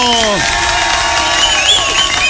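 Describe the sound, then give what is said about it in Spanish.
Audience applause and cheering at a prize announcement, when the contest winners are named: a dense, steady wash of clapping with pitched shouts and a voice running through it, loud throughout. “Un aplauso.”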